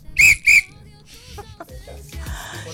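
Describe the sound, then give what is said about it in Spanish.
Two short, shrill blasts on a hand whistle sound in quick succession, loud and piercing, followed by quieter background sounds. “Anda con su silbato,”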